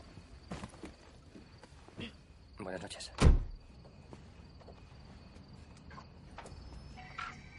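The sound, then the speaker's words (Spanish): A car door is shut by a man after a woman sits down at the wheel: a single loud, solid thud partway through, surrounded by faint chirping insects and soft rustling. “se sienta al volante y él le cierra la puerta.”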